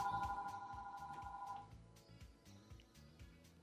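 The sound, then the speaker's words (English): A telephone rings with one sustained electronic tone that lasts about a second and a half, then stops, leaving low rhythmic background noise. “I guess that was y'all's phone or something.”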